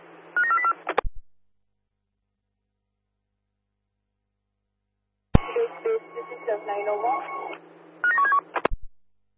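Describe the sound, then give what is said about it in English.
Telephone keypad dialing tones from a police dispatch placing a name-check call: a quick run of bright DTMF beeps, silence, then a stretch of crackly radio-like noise, followed by another short burst of keypad tones. “They're dialing now.”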